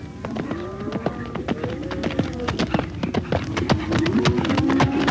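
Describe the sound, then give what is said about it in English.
Horse hooves clip-clop as a rider approaches during a cattle roundup. There are many sharp hoofbeats in an uneven trotting rhythm, growing slightly louder toward the end. “I was about to head back to the house when I saw Edwina riding toward me.”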